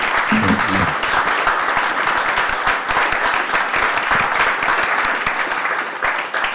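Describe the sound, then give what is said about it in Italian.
Audience applause fills the room at a book presentation: dense, steady clapping that holds at an even loudness and eases slightly near the end. “e quindi grandissimo applauso per Anne Soberman.”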